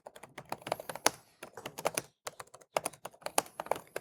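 Fingers type on a computer keyboard in quick, irregular bursts of crisp clicks. A brief pause falls midway, then the keystrokes resume at the same brisk pace.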